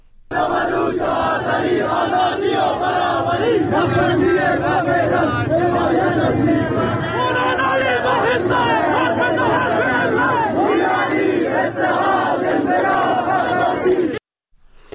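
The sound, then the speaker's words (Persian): Protesters chanting slogans in unison in the streets of Zahedan after a cleric's sermon, a loud, steady, rhythmic crowd roar of many voices that holds for about fourteen seconds, then cuts off abruptly. “این صدای مردم معترض امروز در زاهدان بود بعد از سخنرانی مولوی عبدالحمید”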